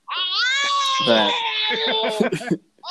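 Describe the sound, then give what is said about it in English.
A small child screaming: a loud, high-pitched sustained wail that breaks into choppier, shorter cries near the end before stopping. “I'm not going to be able to do a podcast with you without having some small child screaming.”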